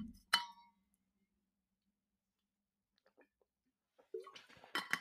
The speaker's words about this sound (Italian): Lo dico senza neanche pentirmi, intanto bevo perché ho sete.